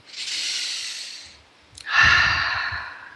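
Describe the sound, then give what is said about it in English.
Deep breaths taken during a guided relaxation exercise: two long, soft, airy breaths, the first gently fading out and the second starting after a short pause and carrying a little more low rumble, with no speech. “So, how about taking a few deep breaths? Relax.”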